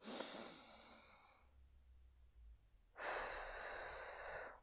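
A person audibly breathes in, holds the breath briefly in near silence, then breathes out in a long, airy exhale, demonstrating a breathing technique.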